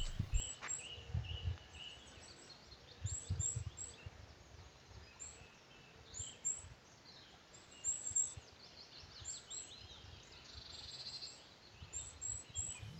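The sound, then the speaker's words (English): Faint outdoor birdsong: many short, high chirps scattered throughout, over low, uneven rumbling noise. “I'm noticing right now I'm really grateful to hear the birds singing in the background of your place.”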